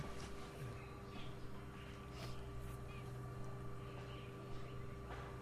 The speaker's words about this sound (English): What is that thing? It's a pump, right? Yeah. Okay. We have a choice, the pump or you. If the pump is louder, we're going to choose the pump.